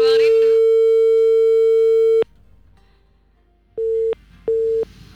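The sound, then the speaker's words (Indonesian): A telephone busy tone sounds after a caller's line is cut off during a phone-in call. A brief voice is followed by a long, steady tone that stops abruptly. After a pause, two shorter identical beeps follow. “Oke, teleponnya terputus ya pendengar.”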